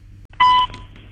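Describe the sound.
A single electronic telephone tone: one steady, mid-pitched beep lasting about a quarter second, loud against a low background hum.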